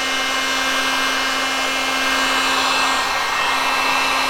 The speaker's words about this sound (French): Et je vais en fait réchauffer ma matière pour réactiver en fait l'activateur que j'avais mis dedans. Donc j'utilise un décapeur thermique qui me permet de faire chauffer.